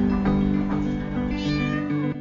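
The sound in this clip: Cat meowing in a pop music video about a bad breakup, loud drawn-out mewing with a steady tone that fills the whole clip.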